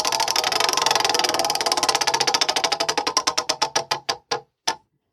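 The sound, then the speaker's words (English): A prize wheel spins and ticks during a trivia game played at a desk crowded with snacks and drinks. Rapid clicks steadily slow and spread apart until the last few isolated ticks stop. “let's spin the wheel.”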